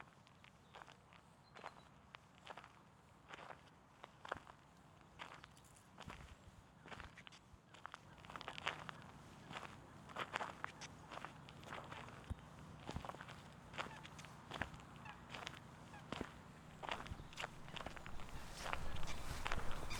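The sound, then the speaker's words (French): Footsteps walk along a trail on a coal-mining slag heap on a cool morning, many steady, evenly paced footfalls, faint at first and growing somewhat louder toward the end. “Alors, donc là, je suis en train d'avancer dans le Terri de Riolet.”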